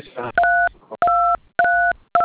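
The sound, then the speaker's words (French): A telephone nearby sends dialing tones: three long two-note beeps in a steady rhythm and the start of a fourth, with a brief voice fragment before the first. “il y a un téléphone qui est en train de grincer auprès de vous.”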